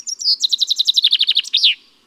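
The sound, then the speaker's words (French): Common chaffinch song: one short phrase of bright, high notes that speed up and descend in a cascade, ending in a brief flourish. “Le pinson des arbres répète inlassablement sa chanson, plus de 1000 fois par jour.”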